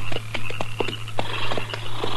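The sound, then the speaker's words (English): Horses' hooves clop on a dry prairie as the animals are pulled to a stop, giving many sharp thuds in an uneven rhythm over a steady low hum. “All right, hold it. Pull up them horses.”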